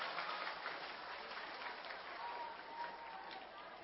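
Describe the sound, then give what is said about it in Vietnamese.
Audience applause at a Buddhist Vu Lan gathering in a monastery. A faint but continuous patter of clapping runs for several seconds, and speech is partly heard alongside it. “Xin quý vị cho một tràng pháo tay.”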